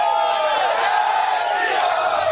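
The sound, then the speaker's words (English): A Bajrang Dal mob chants slogans during an attack in Ganj Basoda near Bhopal: a thick, continuous mass of shouting voices, loud and unbroken throughout. “They pelted stones, broke the chairs and pots, and chanted Jai Shri Ram slogans.”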